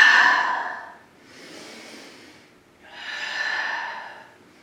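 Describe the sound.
Deep breathing during a yoga flow into cobra pose: three long, airy breaths with no talk, a strong first one, a softer second and a full third.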